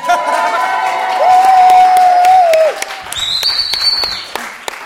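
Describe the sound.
Live audience at a community event cheering and applauding loudly, a mass of clapping mixed with shouts and long whistled whoops, swelling to a peak midway before easing off into scattered claps and a final whistle.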